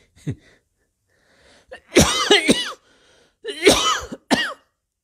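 Coughing that interrupts chanting: a few loud, harsh hacking bursts in two main clusters, with fainter throat sounds before them.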